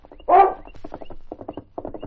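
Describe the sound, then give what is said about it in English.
Horse hooves clip-clop as a rider rides up, a steady run of rhythmic beats broken by short pauses, with a brief louder tonal animal call near the start. “At that moment, King stood on top of the distant hill, barking in summons as Sergeant Preston rode up to him.”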